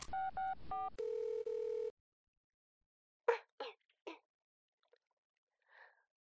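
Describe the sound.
A telephone being dialed for a call: a quick run of short keypad tones, then a longer steady tone, followed after a pause by a few faint, brief breathy bursts.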